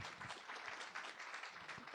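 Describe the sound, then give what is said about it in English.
An audience applauds a panel speaker at the end of his talk, a faint, even patter of many hands clapping that runs steadily for two seconds with no break. “A worthy applause”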